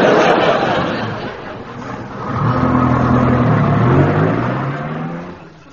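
A temperamental vehicle's engine that needs coaxing, idling roughly and then revving up in a sustained, rising hum for a few seconds before easing off toward the end.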